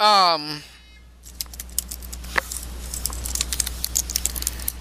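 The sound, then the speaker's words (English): Typing on a computer keyboard: a quick, uneven patter of light key clicks over a low steady hum, after a brief voice at the start. “Sorry about that. Yeah, I had to type something in.”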